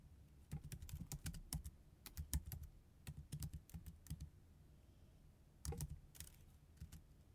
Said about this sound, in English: I wonder if I can type this into my little thing here.